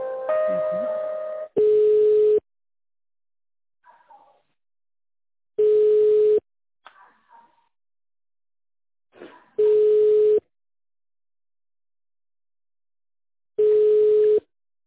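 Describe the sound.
Telephone line tones play while a call is being transferred: four long, steady, mid-pitched beeps spaced evenly about four seconds apart, with brief faint voice fragments and noises between them and a short stretch of speech at the start.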